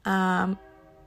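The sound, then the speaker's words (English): A train horn sounds in one steady, loud, harmonic blast of about half a second, followed by a fainter lingering tone after it cuts off. “And that was a train, if you heard that in the back. Okay, yep, we're just gonna keep honking.”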